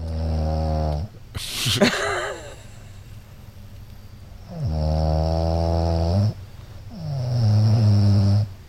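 A woman's snoring: loud, rasping, rumbling snores with strong low harmonics. A few long snores are separated by quieter breathing gaps, with a brief noisy snort between the first two.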